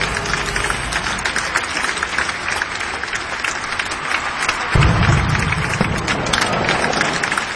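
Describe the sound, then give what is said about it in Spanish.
Audience applause at a live show in Montevideo, dense continuous clapping throughout that grows noticeably louder and fuller in the last few seconds. “Por favor, muertos de frío, muertos de hambre, aplaudan. Esta tiene guita, en serio. Aplaudan de una vez, por favor.”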